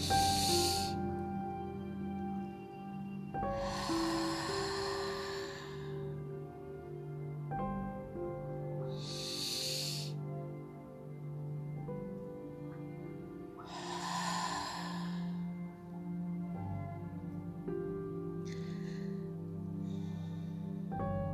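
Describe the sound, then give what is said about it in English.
Deep breaths drawn from the diaphragm during a guided meditation, heard as a few slow, airy inhales and exhales rising and fading over soft, sustained calm music. “Let's take three deep breaths all the way from the diaphragm.”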